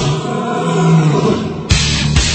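A monster roar sound effect for a lion-like beast with a dragon's head and bat wings. A loud, sustained, growling roar runs throughout, with a second, sharper burst near the end.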